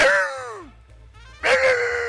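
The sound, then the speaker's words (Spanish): A human voice imitates a dog, giving a whining cry that falls in pitch, then a short lull over a low hum, then a second loud, strained yelp-like cry. “Es un perro.”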